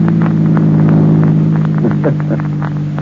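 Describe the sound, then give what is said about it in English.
Steady engine drone of a dusty car driving fast down a narrow desert road, a loud, even low hum with a strong rumbling undertone and no breaks. “Driving fast, a dusty car comes down a narrow desert road.”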